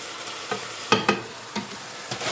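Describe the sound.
Meat browning in a frying pan gives a steady, even sizzle, with a few sharper scraping taps of stirring breaking through the hiss and no one talking.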